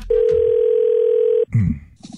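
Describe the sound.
A single long telephone ringing tone heard while placing a call, steady and even in pitch for over a second, then cut off as a faint voice begins.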